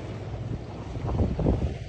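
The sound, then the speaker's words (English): Wind and water sound aboard a sailboat: a steady, low rushing buffet of wind with sloshing water beneath, growing slightly louder toward the end and with no speech. “I'm on a sailboat, and I went to sailing camp in the third grade, so obviously I know how all of this works.”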